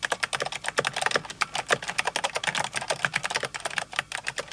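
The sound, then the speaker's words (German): Fast typing on a computer keyboard by a skilled typist, a dense, continuous stream of quick, crisp keystrokes with an uneven rhythm that holds steady for the whole stretch, with no voices. “Erreicht eine Spitzenkraft, die Rekordquote von 600 Anschlägen in der Minute, spricht man von schnellem Schreiben.”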